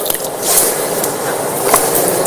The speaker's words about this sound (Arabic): لكن السنة الإنسان يدلك يمر يده على اليد الأخرى الآن اليد اليسرى نفس الشيء الماء قليل